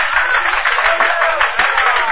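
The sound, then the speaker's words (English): An audience applauds a guest being introduced at a presentation, with dense, steady clapping from many hands that holds at an even loudness for about two seconds. “Then applause drew me from my unhappy reverie.”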